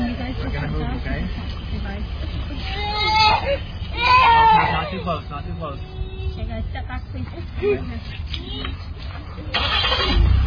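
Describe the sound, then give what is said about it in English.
A police vehicle's engine starting as officers drive away with a detained father, heard over people talking, with a louder surge of engine noise near the end. “They start the vehicle and haul Daddy away”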